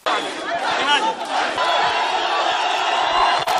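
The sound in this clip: A large crowd cheers and shouts at Mwalimu Julius Nyerere International Airport to welcome Tundu Lissu home from abroad. The roar is dense and continuous, with excited voices and whoops throughout and a brief dip near the end.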